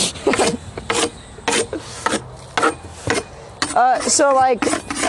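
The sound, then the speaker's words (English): Spatulas scrape and break up dirt in a series of many short, harsh rasping strokes at an irregular rhythm, with a brief voice-like sound near the end. “That's all those noises. It's just them using spatulas to break the dirt.”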